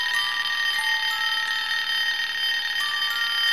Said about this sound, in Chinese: 电话响了。